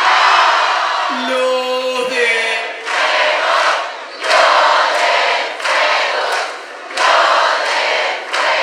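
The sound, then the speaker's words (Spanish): A live concert audience at Mambo in Isidro Casanova cheers and shouts with hands raised, a loud, continuous roar that swells in repeated waves. “Para que escuche el país lo que es el público de Mambo de Isidro Casanova con las manitos arriba.”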